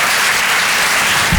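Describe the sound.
Audience applause for a stand-up comedian at a comedy club: dense, steady clapping that holds at an even, loud level from start to finish.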